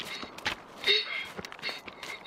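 Quick running footsteps of children racing each other, a rapid, uneven patter of soft steps over steady background noise.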